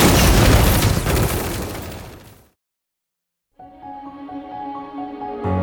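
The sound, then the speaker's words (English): Weapons fire and explosions in an audio drama combat scene, a loud, dense roaring blast that fades out into silence, followed by sustained musical tones. “On my command, concentrate your fire on that side of their squad. Ready? And fire!”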